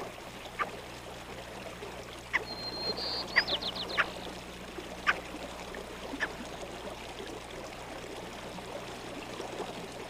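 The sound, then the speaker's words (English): Ptarmigan roosters cackling in willow flats in spring: a few faint, scattered clucking calls over a steady, rushing background like flowing water. “There are many ptarmigan in the willow flats. The roosters are full of cackle, and they are fast coming out of their winter plumage.”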